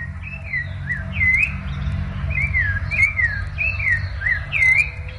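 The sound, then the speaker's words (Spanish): A thrush sings in a Florencio Varela ecological park, giving many bright, looping whistled phrases in quick succession over a steady low rumble. “Ahí está el Sorsalito cantando.”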